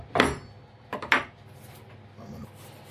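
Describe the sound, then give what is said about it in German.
Cubes of raw meat dropped into a Thermomix mixing bowl give a few short, clattering thuds, followed by a fainter rustle as the pieces settle. “die Fleischwürfel in den Mixtopf geben, 10 Sekunden Linkslauf Stufe 2 mischen. Also, jetzt gehen wir unser Fleisch rein.”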